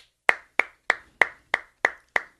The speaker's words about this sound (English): We should give ourselves a round of applause.